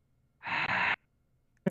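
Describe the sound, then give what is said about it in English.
A person imitates the deep last breath of a heavy sleeper falling asleep with one long, breathy sigh that stops abruptly. After a short silence, another brief breathy burst begins. “like just that one deep breath. I'm just like, oh, this is it. He's dead. Wow. KO. You sound like you just died. One last breath.”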